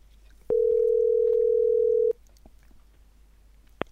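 A telephone ringback tone sounds while calling someone back after they hung up: one steady beep lasting about one and a half seconds. Near silence follows, then a short click at the end.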